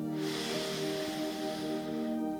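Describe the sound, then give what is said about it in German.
A slow breath drawn in through the nose during a guided relaxation exercise, a soft, steady airy hiss lasting about two seconds over a sustained tonal background, with no talk. “Lass uns nochmal atmen. Wir atmen durch die Nase ein”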